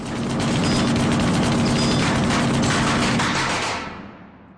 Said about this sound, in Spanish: El atracador carga la metralleta y sigue disparando. Bender huye a escasa distancia de las balas.